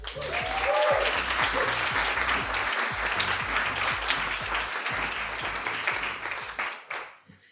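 Audience applause welcomes a storyteller to the stage at an evening of told stories: dense, steady clapping holds strong for about seven seconds, then thins and fades away at the end.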